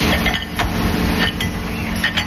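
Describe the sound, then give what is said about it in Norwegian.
A large machine inspecting porcelain plates at the Figgjo porcelain factory in Norway gives off a steady, loud mechanical whir and rumble, broken by a few brief, sharp ticks or clinks. “En stor maskin sjekker tallerkener som skal selges til Norge og andre land.”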